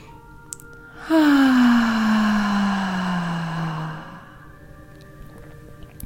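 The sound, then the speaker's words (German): Deep breath drawn in and then released with the voice as a relaxation exercise: a single long, low hum that slowly slides downward in pitch and fades after about three seconds, with no words. “Und dann atmest du aus mit Stimme. Nochmal gerne einmal mit mir zusammen tief einatmen.”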